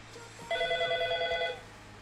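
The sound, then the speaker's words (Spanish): A telephone rings on an incoming call, one warbling electronic ring lasting about a second. It is bright and fairly loud against a quiet background, and no voices are heard. “ya está haciendo ahí la llamadita.”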